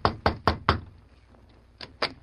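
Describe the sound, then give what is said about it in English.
Knocking on a hotel room door: four firm raps in quick succession, a short pause, then two more knocks. There are no voices. “The two men stopped in front of the room door. The Lone Ranger hesitated a moment, then knocked.”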